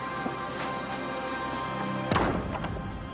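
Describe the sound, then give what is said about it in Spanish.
A dining room door swings shut with one dull, moderately loud thump, landing late against a steady low background hum. “Después, cierra la puerta del comedor.”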